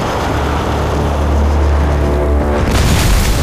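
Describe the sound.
A grenade explosion during a wartime ambush on troops near a vehicle: a deep, sustained rumbling boom with heavy low-end roar, swelling into a brighter, harsher burst near the end, with no voices.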